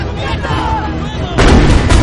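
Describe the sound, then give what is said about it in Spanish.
Heavy artillery fire from North Korean coastal positions at NATO ships in a Korean War film: a dense run of booming blasts that grows louder and more intense partway through. “Desde la costa, los norcoreanos lanzan bombas contra los buques de la OTAN y las avanzadillas.”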